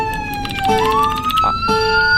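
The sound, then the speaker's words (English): Police car siren in a train-driving video game: a loud, continuous wailing tone that climbs in pitch partway through, heard alone over about two seconds. “There's a police car.”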